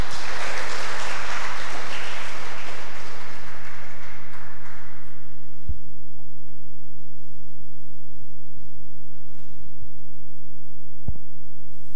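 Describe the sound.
A church audience claps to welcome a speaker, a dense burst of applause that fades away after about five seconds, leaving a low, steady hum.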